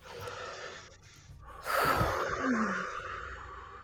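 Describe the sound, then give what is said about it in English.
A group of people draws a deep breath together on a count, a loud, breathy rush that swells midway through and then slowly tails off. “On the count of three, let's give a nice deep breath. 1, 2, 3.”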